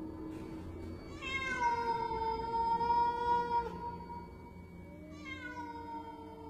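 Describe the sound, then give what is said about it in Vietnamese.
A black cat meows in a courtyard. There are two long, drawn-out meows separated by a short pause; the first is louder, and no one speaks. “Con mèo đứng ở giữa sân, nhìn vào trong nhà kêu lên mấy tiếng.”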